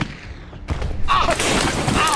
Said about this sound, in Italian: D'accordo, ora gli sparo, prendo la mira.